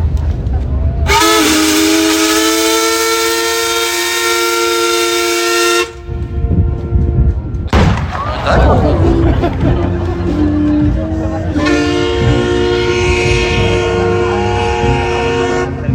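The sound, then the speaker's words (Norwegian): A ship's horn sounds a salute in honour of the paddle steamer Skibladner's 170th anniversary. Two long, loud, steady blasts are separated by a stretch of crowd babble and rumbling noise. “Livin straks fyrer av en salut til ære for Skiblander som fyller 170 år I dag.”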